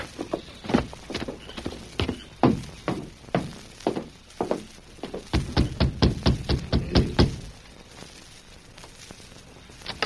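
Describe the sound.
Horse hooves clip-clop as a rider arrives and reins up before a ranch house after dark, a radio drama effect. Many hoofbeats fall in an uneven trot, tighten into a quick run of clops, then stop into quiet.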